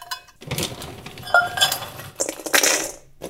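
Two cups of pecans poured into a bowl: clattering, clicking rattles of hard nuts against the bowl in a few loud bursts with brief pauses between them.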